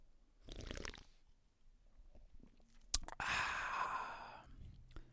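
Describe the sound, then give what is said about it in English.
A sip of Liquid Death Severed Lime canned water, 16.9 ounces: a brief soft slurp, a sharp click, then a long breathy sigh of refreshment, all fairly faint. “That was the taste. That was the sound of a refreshing Liquid Death.”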